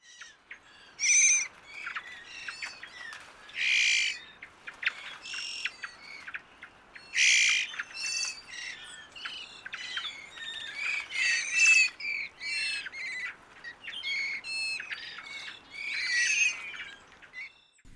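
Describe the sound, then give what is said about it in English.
A shy bird gives its winter call: many short, harsh, high squawks repeated in irregular bursts over about eighteen seconds, loud and alone against a quiet background. “Well, that sound was the winter call of the bird.”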